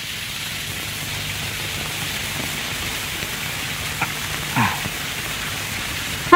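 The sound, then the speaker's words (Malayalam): Heavy rain during the Meenam month pours down in a dense, even hiss that holds steady throughout, with a few faint knocks near the end. “എന്തൊരു മഴ! തൊഴുത് പുറത്തിറങ്ങിയപ്പോ തുടങ്ങിയതാ. മീനമാസത്തിലെ മഴ എവിടെയെങ്കിലും കേട്ടിട്ടുണ്ടോ?”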